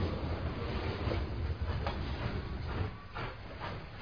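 A train sound effect: a steady, dense rumble of rolling rail noise with faint rhythmic clatter running throughout, with no voices.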